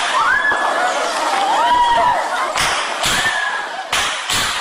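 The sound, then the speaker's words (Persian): Students scream during an armed attack on Kabul University. Wavering, rising and falling cries mix with shouting voices, and a few sharp, loud bursts cut through the commotion. “این آن صدای فریادهای دانشجویان است که در جریان حمله به پوهنتون کابل ثبت شده است.”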